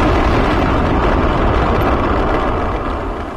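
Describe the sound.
A rocket launch after a countdown: a loud, dense, continuous roaring rumble fills the whole stretch, broad and steady, easing slightly toward the end.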